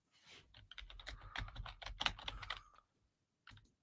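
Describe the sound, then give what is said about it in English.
Rapid clicking of fingers typing on a computer keyboard, a steady run of quick keystrokes, then a pause before one short final burst of taps. “how about you let me type nicknames in?”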